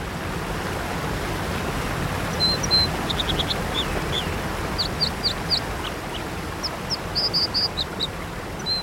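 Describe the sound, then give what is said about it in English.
American dipper calling beside a waterfall: high, thin chirps and short whistled trills in several separate bursts over a steady, loud rush of falling water. “This is the sound of the American dipper, a plump, slate-colored bird. It actually lives under waterfalls and builds its nest on ledges precariously perched between the rock and the cascade.”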